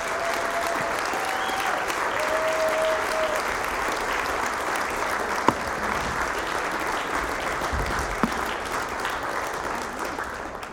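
An audience at Vineyard Northwest stands and applauds to welcome a couple back onto the stage, loud, dense clapping that holds steady for about eleven seconds with a few sharper individual claps standing out.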